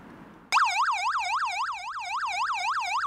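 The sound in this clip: A police car's yelp siren, a special signal for making the vehicle ahead pull over, switches on abruptly and then warbles in rapid, even up-and-down sweeps. It stays loud and steady with no talk over it.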